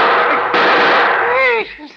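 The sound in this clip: A gunshot fired at a man outside his front door: a sudden sharp crack about half a second in, inside a harsh, noisy burst, followed briefly by a voice.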